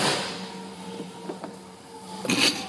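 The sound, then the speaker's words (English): A gym machine that is falling apart runs with a steady mechanical whir and hum, broken by a few rattling knocks, with a louder clatter near the end. “Just the machine falling apart. No big deal. Whoops. Did I do that? No. The machine is falling apart”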